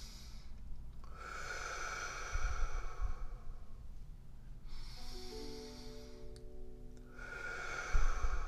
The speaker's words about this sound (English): take some deep breaths. Just deep belly breath.